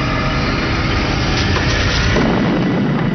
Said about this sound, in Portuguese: De repente, meu corpo foi jogado para cima. Era a explosão.